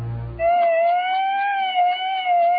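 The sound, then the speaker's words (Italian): An ambulance siren wails in a loud, continuous, gently wavering tone after a brief low rumble at the start. “Sì, l'avrete riconosciuto, è l'ambulanza di Mafiopoli.”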